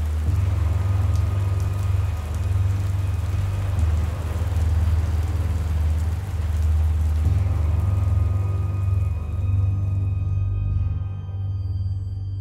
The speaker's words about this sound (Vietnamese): Giữa đêm canh ba, mưa to như thác đổ, đem không khí lạnh lẽo phủ kín dương gian